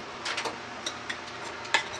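Stirring chickpea and tomato soup with whole rosemary in a pot: faint, soft scraping with a few light clicks and taps, quiet and unhurried.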